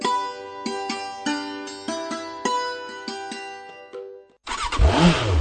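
A Bangladeshi-made Runner motorcycle engine, from a range of 80 to 150 cc, bursts into a loud, rough rev at the end, after several seconds of a bright musical jingle made of sharp, repeated notes.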